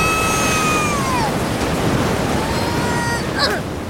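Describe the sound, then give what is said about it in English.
Ocean surf rushes over a sandcastle as the tide comes in, a steady, loud hiss of breaking water with faint thin whistling tones drifting above it. “That wave completely destroyed your sandcastle.”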